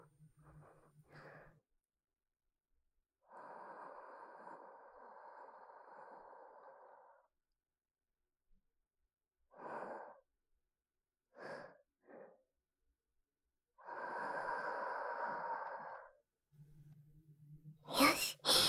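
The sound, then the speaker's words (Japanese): Gentle breath blown into an ear at the end of an ear cleaning: two long, soft, breathy whooshes and several short puffs, separated by near silence and quiet throughout. “それじゃ、最後にふうふうしてしまいじゃ。行くぞ。”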